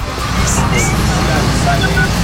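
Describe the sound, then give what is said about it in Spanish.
A SWAT armored tactical vehicle drives out during a police operation, its engine a steady low rumbling drone mixed with loud crowd babble throughout. “Y en estos momentos sale el vehículo blindado de la SWAT de operaciones tácticas”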